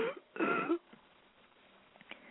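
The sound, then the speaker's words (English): A voice performs a throat clearing for Miss Lotta Scale as she clears smoke from her throat: a short raspy catch, then a longer, louder gravelly rasp, followed by near quiet. “Finally, Miss Scale looked around at the children and cleared the smoke from her throat.”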